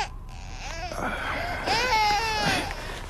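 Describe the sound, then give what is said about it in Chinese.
A young child crying in short, breathy whimpers that swell into a few wavering, high-pitched wails, fairly quiet and without talk. “不哭啊，乖。”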